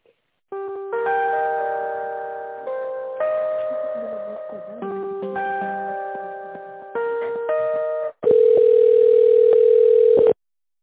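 Telephone line tones while a call is transferred: a sequence of steady electronic beeps stepping between pitches, then a louder continuous tone lasting about two seconds.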